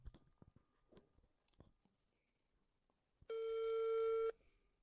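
Telephone ringback tone as a call goes unanswered: a single loud, steady electronic buzz lasting about a second, preceded by faint soft rustling and clicks.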